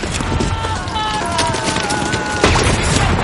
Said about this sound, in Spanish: Los alemanes rematan a los heridos.